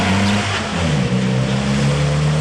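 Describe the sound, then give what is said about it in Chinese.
Police car engines roar as several cars speed at high speed onto a middle school campus in Nanjing. The drone is loud, continuous and steady, with no voices. “突然，一阵马达的轰鸣声打破了校园里的宁静，几辆警车高速闯了进来”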